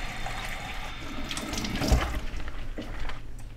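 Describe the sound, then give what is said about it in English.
Tap water runs steadily into a sink as cups are rinsed of a peroxide solution, a continuous splashing hiss with a brief heavier splash and knock near the middle. “In this case, with peroxide, we just need to rinse them, dry them, and store them.”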